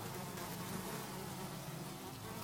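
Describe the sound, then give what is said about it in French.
Flies buzzing in a swarm outside a door, heard as a faint, continuous, dense drone that stays even throughout with no pauses. “Je claque la porte pour empêcher les mouches de me suivre.”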